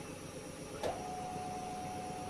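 Tire changer machine turntable rotating to work a tire off its rim: a brief clack, then a faint, steady motor whine over a constant low hiss.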